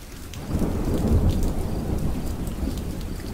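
Thunder from a lightning strike rolls deep and loud through steady hissing heavy rain. The rumble swells after about half a second and slowly fades while the rain keeps pouring, with no voices.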